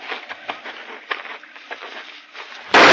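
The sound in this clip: A single loud gunshot bursts out abruptly at the very end, fired during a game hunt, after a stretch of faint, low sounds.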